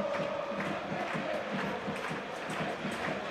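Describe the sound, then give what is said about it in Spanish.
Football crowd at the Rico Pérez stadium in Alicante rising to its feet during a late Hércules corner kick: a dense, sustained roar of massed voices with a faint regular pulse running through it. “Ese es el Rico Pérez, ¿eh? El público que se pone de pie.”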